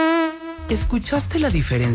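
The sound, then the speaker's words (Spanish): A mosquito, said to carry dengue, gives a steady, buzzing whine for about half a second before a person starts talking. “Este es el sonido de un mosquito. Y este es el sonido de un mosquito con dengue.”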